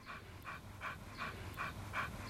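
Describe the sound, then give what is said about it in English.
A frisky white dog pants in quick, even bursts while darting along a narrow dirt path beside a stream in a coastal New Zealand town, the breaths soft and rhythmic and repeating many times without any talk. “a frisky white dog darts along a narrow dirt path stretching along the Waitohu stream”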